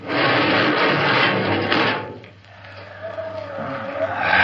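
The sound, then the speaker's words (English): A spaceship airlock opens in a radio drama with a loud, rushing hiss of air that fades midway, then a thin whine and a renewed, rising hiss build toward the end. “All right, Park, you. Open the airlock.”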